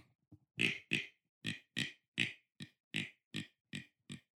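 Deer grunt call imitating a younger whitetail buck: a steady run of about ten short, clipped, low grunts, evenly spaced and fairly faint, with nothing else around them.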